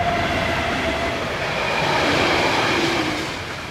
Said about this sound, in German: Der Zug ist so nah, dass er die Tassen auf dem Tisch zum Tanzen bringt.